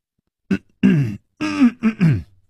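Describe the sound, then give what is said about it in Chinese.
A voice imitates coughing with a few short, rough, throat-clearing bursts, fairly loud and separated by brief pauses, with no words spoken. “楚留香咳嗽了两声”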